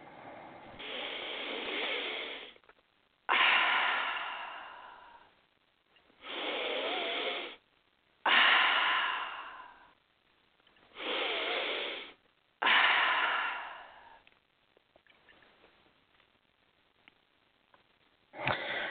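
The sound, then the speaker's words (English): Deep breathing during a guided prayer exercise: six long, loud breaths with short pauses between them, followed by a few much fainter breaths. “take a couple of nice deep breaths.”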